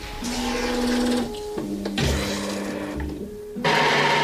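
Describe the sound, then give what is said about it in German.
An electric bidet toilet seat running its wash and dry cycle, with a motorized whirring and steady tonal hum that shifts in level and pitch over several stages and grows louder near the end. No one speaks. “Man kann also nach dem Toilettengang sozusagen abgeduscht und auch wieder geföhnt werden. Das machen wir jetzt einmal mal. Ich drücke da einfach mal rauf.”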